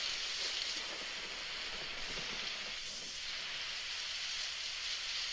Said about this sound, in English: And this is rain, rain, original. This is the sound of rain.